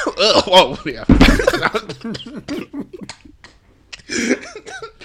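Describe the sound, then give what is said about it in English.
A person in a video from a church service lets out a loud, harsh snort, one rough burst set among ongoing talk, with voices heard both before and after it. “That was a healthy snort.”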